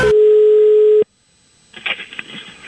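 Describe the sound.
A telephone dial tone sounds as a call is placed by voice command: a loud, steady single-pitch hum that holds for about a second and then cuts off abruptly, followed by quieter, irregular sounds.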